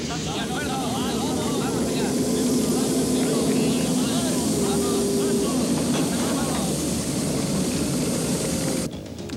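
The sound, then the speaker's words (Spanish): Aircraft propeller engines start up and drone steadily in a dubbed film scene. The loud, continuous rumble stays even, and voices speak over it before the noise drops away near the end. “¡Caballeros, conecten los motores!”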